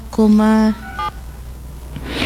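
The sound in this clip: A telephone is dialed to reach a colleague: a loud, steady electronic tone lasts about half a second, then a second, shorter tone follows, over a low background hum.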